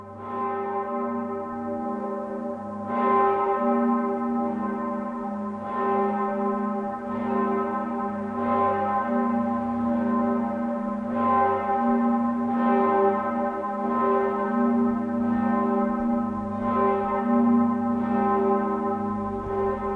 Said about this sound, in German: Dem majestätisch dunklen Klang der Glocken, die nun die heilige Nacht im Festjahr ihres Kirchenpatrons einläuten, hört man an, dass sie zu den mächtigsten und tontiefsten Münchens gehören.